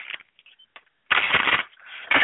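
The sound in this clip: A deck of goddess oracle cards is shuffled in two bursts of rapid, papery riffling, each preceded by soft taps and light card handling. The second burst is shorter than the first.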